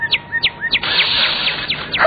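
A cardinal chirps in quick, high, downward-slurred notes, spaced apart at first and then repeating faster over a soft hiss.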